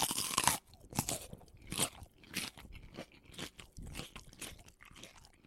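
Teeth bite into crunchy food, giving many loud, crisp crunches in an irregular chewing rhythm, the first bite heaviest.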